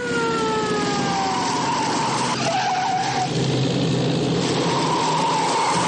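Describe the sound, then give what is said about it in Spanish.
A car engine drives into a wartime citadel, a loud continuous roar with descending whining tones early on and a steady engine rumble throughout. “Maloría arranca y circula tras el motorista aprovechando el paso que despeja. Entra en la ciudadela.”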